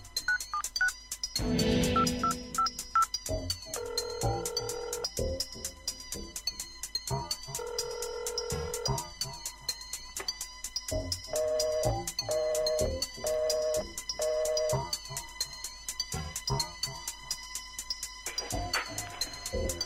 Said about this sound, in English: Daddy ain't picking up the phone. Daddy won't call me back.